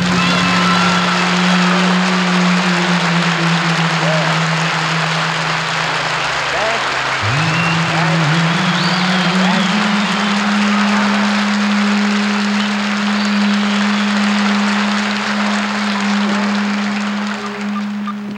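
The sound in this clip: Long, continuous audience applause welcoming a performer, a dense wash of clapping over a sustained low tone that steps up in pitch around the middle.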